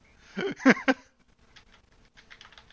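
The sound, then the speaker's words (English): Someone types a search on a computer keyboard: soft, irregular key clicks, a louder burst near the start, then scattered faint taps. “Just go to YouTube real quick. Just type in Gosu.”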